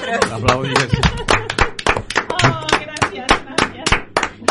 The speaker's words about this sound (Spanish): Te aplaudimos aquí nosotros.